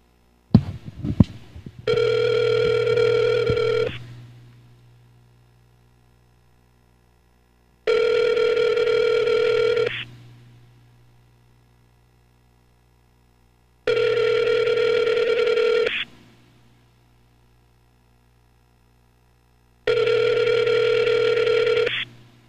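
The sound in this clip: Ringback tone of an outgoing telephone call: after a few brief clicks at the start, four long, even electronic tone bursts sound at a steady pitch, separated by evenly spaced silent gaps.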